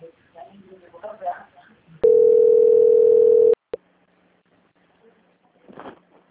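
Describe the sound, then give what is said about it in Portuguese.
A steady single-pitched telephone line tone plays while a bank call is transferred, holding loud and even for about a second and a half. Talk comes before it, a click follows, and a faint voice comes after. “Só um momento, por gentileza, que eu vou transferir o contato, tá bom?”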